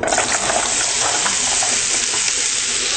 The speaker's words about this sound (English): First thing we're going to do is we're going to fry up the courgettes. Put a dabble of olive oil or any other oil that you choose and make sure that it's already quite high heated. Slapping it on top,